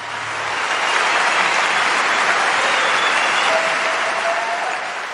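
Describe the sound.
Sustained audience applause welcomes a singer onto the stage at a 2022 cultural olympics event, dense and loud throughout before easing slightly at the end.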